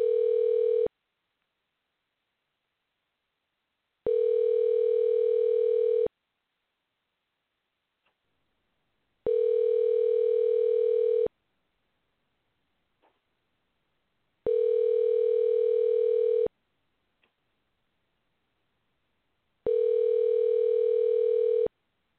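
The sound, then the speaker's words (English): Ringing tone on a telephone line while placing a call: five steady, even-pitched bursts of about two seconds each, separated by longer silences, with a few faint clicks in the gaps and no voices. “I'm going to place a call to our guest today, so bear with us as we make that call.”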